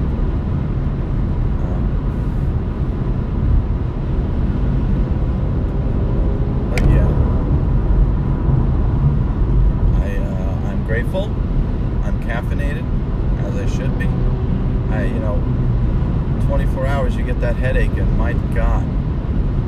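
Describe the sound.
Constant low road and engine rumble from inside a moving car, unbroken throughout, with a voice talking over it in the second half.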